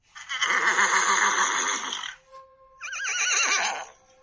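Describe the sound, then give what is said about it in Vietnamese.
A black war horse neighs in two long, loud whinnies, the first lasting about two seconds and the second following after a short pause, both shrill and quavering, with no other sounds. “Con ngựa đen hí dài một tiếng, tiếng hí át hết thanh âm của mọi người.”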